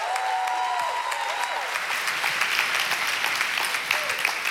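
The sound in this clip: Audience applause at a church service welcoming a teaching pastor, dense steady clapping throughout, with a voice briefly rising over it near the start.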